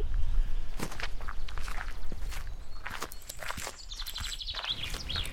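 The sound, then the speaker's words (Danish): Footsteps cross a wooden footbridge into a field, a steady series of soft thuds and knocks at walking pace, moderately quiet and heard alone. “Vi skal lige over træbroen. Ja. Og ind på marken herover, så kommer vi lige over til Danmarks første badeland. Lad os da lige gå over og se lidt på det.”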